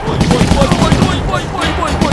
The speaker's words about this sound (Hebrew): אני יורה עליהם מכת אש